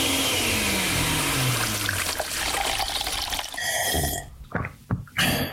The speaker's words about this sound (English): We take a bunch of hits, old and new, mix in a little indie flair, throw it all in a blender.